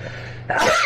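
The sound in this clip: A single short, sharp sneeze from someone suffering bad allergies bursts out midway over a faint, steady low background hum.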